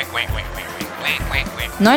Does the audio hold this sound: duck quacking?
yes